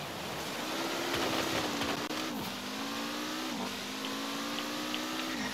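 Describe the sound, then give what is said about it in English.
A Lego car drives around the main island of a video game, its engine a steady mid-pitched drone that dips briefly twice before picking up again. “I hadn't realised that you could drive the Lego car around the main island. I thought you could only drive them around the DLC island.”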